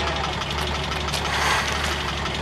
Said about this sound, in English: almost into the path of a dirty truck. It screeches to a halt.